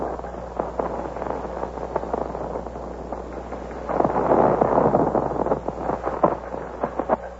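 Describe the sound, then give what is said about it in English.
Gunfire is exchanged between Colonial Minutemen and British regulars marching on Concord. Many sharp, irregular bangs crack over a muffled, rumbling background and grow louder and denser partway through. “There's been an exchange of shots, as you've heard, between the Colonial Minutemen and His Majesty's regulars who are marching on Concord.”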